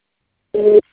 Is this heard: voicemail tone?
yes